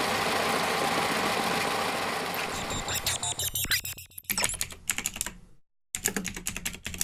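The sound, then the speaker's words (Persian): Mechanical clatter of a hose braiding machine braiding high-pressure rubber hoses for fuel, air and hydraulic oil; a dense steady rattle gives way to rapid irregular clicking, broken by one brief gap before the clicking resumes. “صدایی که میشنوید صدای دستگاه بافت ماست که بافت فشار قوی انجام میده رو شیلنگ های لاستیک”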